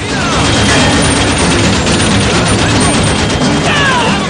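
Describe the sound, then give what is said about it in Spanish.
Rapid machine gun fire in a western shootout, with agents firing at outlaws near a stagecoach. A dense, loud, unbroken roar of overlapping shots fills the whole stretch without a pause. “Los agentes disparan con la ametralladora.”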